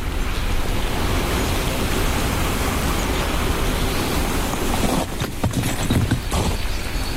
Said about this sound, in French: Sous une végétation dense et épaisse. Écoutons le son des Pyrénées.